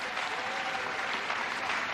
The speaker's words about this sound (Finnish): Jag tycker vi ger musikerna en applåd när de går ner. Mä uskon, että voitte antaa myös muusikoille aplodit.